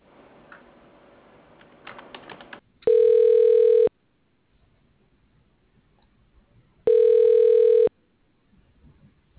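Ringback tone of a telephone call being connected to a hospital pathology lab: after a stretch of soft clicking, two loud, steady one-second tones sound, separated by several seconds of near silence.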